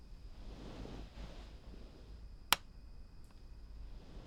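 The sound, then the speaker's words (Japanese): A light switch clicked off at bedtime, a single sharp click standing out midway through a quiet background hiss. “あ、電気消すね。”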